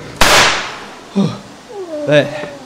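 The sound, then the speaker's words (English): A single sharp, loud rifle shot fired at a tiger cracks out near the start, followed by excited shouting voices. “Give me that rifle. Hurry up! Shoot! Shoot! Try again.”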